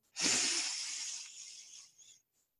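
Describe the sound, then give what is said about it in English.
One long, deep breath during a guided mantra practice, a soft airy hiss that starts abruptly, then tapers slowly over about two seconds and stays faint throughout. “join me just by taking a couple of deep breaths in”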